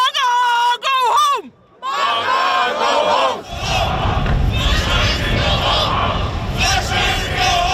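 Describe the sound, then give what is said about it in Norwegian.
Around 150 demonstrators in Trondheim, Norway protest passengers from the cruise ship Silver Dawn, with loud shouted chants and cries over a dense, roaring crowd and many voices yelling at once. “Det her lyd fra Trondheim I går, for der møtte rundt 150 demonstranter opp for å protestere mot en gruppe av passasjerer på cruiseskipet Silver Dawn.”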